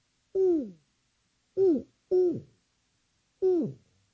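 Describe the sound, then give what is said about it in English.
A human voice imitates an owl hooting: four short hoots, each falling in pitch. One hoot, a pause, two in quick succession, then a final hoot, all fairly loud against silence. “You ever seen an owl before? All right? Every once in a while, we'll get one in our neighborhood. And you know he's there, right? Because you hear,”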